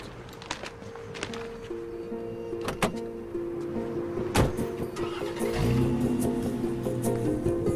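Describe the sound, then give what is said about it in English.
A metallic convertible BMW starts up and drives off. A few sharp clicks and knocks come first, then a rising engine whine builds steadily over the last couple of seconds. “As he drives off in a metallic convertible BMW, she follows him.”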